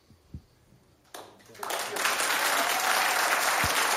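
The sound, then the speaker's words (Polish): A concert audience bursts into loud applause after a brief quiet moment. The clapping swells quickly and then holds as a dense, steady roar of many hands to the end. “Dziękujemy Państwu serdecznie za takie gromkie brawa.”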